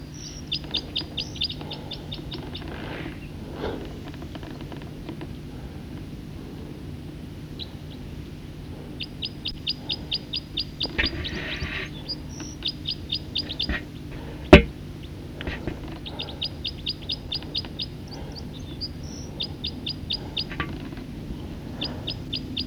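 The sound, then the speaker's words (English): Bird song, a series of repeated high, thin chirps and trills arriving in short bursts over a steady low background hum, with one sharp click partway through. “recording song of a bird.”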